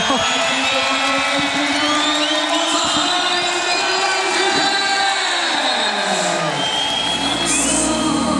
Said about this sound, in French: Et écoutez ce public.